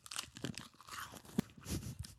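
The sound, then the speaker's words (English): Ice from a freeze pop is crunched between the teeth in quiet, irregular bursts of chewing, with one sharp crack partway through. “Well, I'm chewing on ice because I want to finish my freeze pop.”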